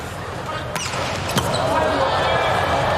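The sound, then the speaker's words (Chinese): A volleyball serve in a match between Slovenia and Turkey: a couple of sharp smacks over steady crowd noise, with a commentator's voice talking. “博尔瑙特的发球，”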